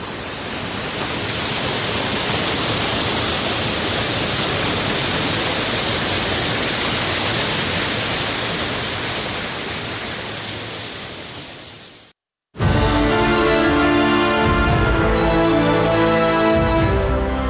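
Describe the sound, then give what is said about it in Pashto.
Water rushes at Mazar Baba, a cold-water spring in Uruzgan, as a steady broad roar for about twelve seconds before it cuts off abruptly and a different tonal sound takes over. “د اروزګان د مزار بابا په نوم دا چینه د دې ولایت یو له مشهور تفریحي او تاریخي سیمو څخه ده چې د ښکلي طبیعت او یخو اوبو په لرلو سره د خلکو لپاره د آرامۍ او ساتیري یو غوره ځای دی.”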